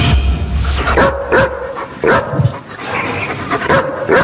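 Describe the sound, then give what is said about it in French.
A dog barks in a series of sharp, loud barks at an uneven pace, a few coming close together, heard alone without voices. “mais je dirais quand même un aboiement de chien. Bah oui, c'est un chien, bravo.”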